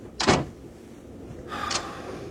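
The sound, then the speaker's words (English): A door in a train corridor is closed and locked, producing two distinct, fairly quiet clunks a little over a second apart, with no voices. “Lock the door behind me.”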